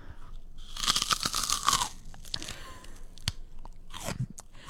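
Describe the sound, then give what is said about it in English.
Raw rhubarb is bitten and chewed in a loud, crisp crunch, followed by quieter, irregular chewing with a few sharp clicks. “Okay, this is my first ever bite of rhubarb.”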